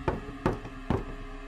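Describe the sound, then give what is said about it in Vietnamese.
Knocking on a door: three evenly spaced, hollow raps sound alone against quiet background hiss, each one short and moderately firm. “Lúc này lại có tiếng gõ cửa,”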